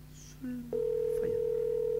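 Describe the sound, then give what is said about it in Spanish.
Telephone tone on an outgoing call placed from Mar del Plata: a short hum and click, then a steady, unbroken mid-pitched tone that holds to the end. “Le estamos llamando de Mar del Plata.”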